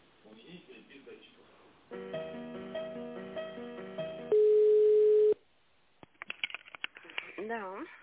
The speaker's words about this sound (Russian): Не могу сказать, могу вас на нее переключить. А, переключите, пожалуйста.